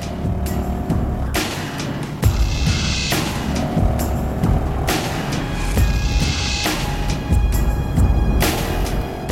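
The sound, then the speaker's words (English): A car cruises down a wide boulevard in traffic, its engine a low, steady rumble that swells and eases as other vehicles pass, with a few brief louder whooshes along the way. “Ludlow cruises down the wide boulevard, tailing Washington's white SUV.”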